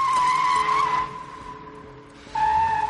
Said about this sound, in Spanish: Sube a su coche. Manipula la palanca de cambios y da marcha atrás.